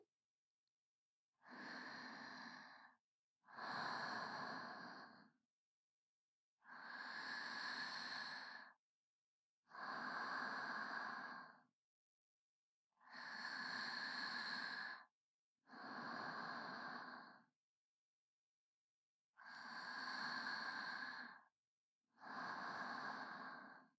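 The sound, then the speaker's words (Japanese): Slow, deep breathing heard alone in quiet: eight long, breathy sounds fall into four in-and-out pairs, with silent pauses between each pair, steady and even in loudness. “力を抜いて、深呼吸。”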